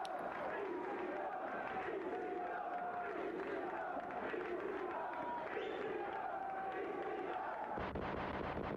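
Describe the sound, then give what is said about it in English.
Wrestling crowd at a 1995 ECW event cheering and chanting, a steady roar of many voices with rhythmic chant patterns repeating throughout, ending abruptly near the close. “Crowd's loving it. Yeah, it's like a fucking standing ovation.”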